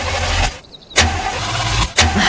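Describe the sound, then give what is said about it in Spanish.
A car engine being started while the car struggles to start, giving a low, loud rumbling drone broken by two short drops to near silence, each followed by an abrupt surge as the motor catches again. “¿Y ahora quieres encender el motor?”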